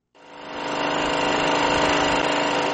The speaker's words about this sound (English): This loud noise from a standby generator is unusual in Cameroon's capital, Yaoundé.